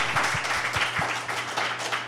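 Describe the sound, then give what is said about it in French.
Audience applause at a live event: dense, fairly loud clapping from many hands, steady and continuous throughout. “Donnez-vous une bonne main d'applaudissements.”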